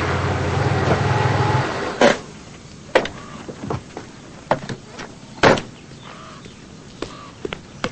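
A sports car pulls up in front of a house. Its low engine rumble holds steady for a moment, then cuts off, followed by a scattering of sharp clicks and knocks as it comes to rest.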